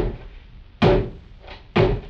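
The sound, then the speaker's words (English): Two heavy, booming thuds strike a door about a second apart as the Sheriff of Nottingham pounds on it, each blow sharp at the start and then quickly dying away. “And it was he who pounded on our door.”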